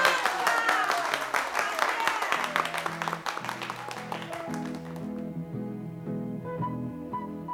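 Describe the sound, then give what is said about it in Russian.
An audience applauds a quick-witted contestant with a broad patter of clapping that fades away as music with steady tones takes over. “Давайте дружненько похлопаем сообразительному товарищу.”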